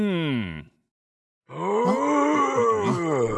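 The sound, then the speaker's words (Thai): A giant rock worm groans twice: a short deep groan that slides downward and cuts off, then after a silent pause a longer, rougher rumbling groan that holds steady to the end. “ที่แท้ก็เป็นเสียงของเจ้าหนอนหินยักษ์นี่เองอ่ะ”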